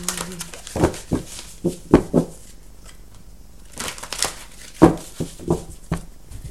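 Tarot cards being shuffled and handled, a deck of tarot cards riffled in the hands, giving many short crisp papery snaps and flutters in irregular bursts, moderately loud with quiet gaps between them.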